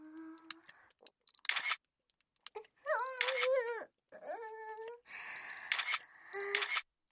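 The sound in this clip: Several camera shutter clicks snap as photos are taken. They are sharp, crisp bursts, with a high female voice vocalising softly between them.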